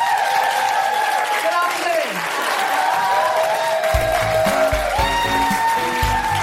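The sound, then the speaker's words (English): Live audience applause for a guest co-host at a comedy show recording: dense, steady clapping and crowd noise that runs throughout, with a voice speaking over it. “A huge round of applause for my incredible co-pilot, Kemah Bob!”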